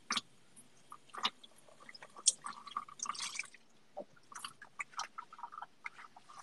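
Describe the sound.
Dishes are washed with water dripping: many faint, irregular clicks, taps and small splashes of crockery and droplets, scattered unevenly throughout with no talk.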